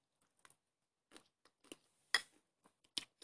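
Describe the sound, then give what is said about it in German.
Soft, crunchy eating of muesli with a spoon: quiet, scattered crisp crunches and clicks at irregular intervals over about three seconds, with silence between them. “Ich esse jetzt noch mal ein Müsli. Ich habe jetzt zwei Löffel gegessen.”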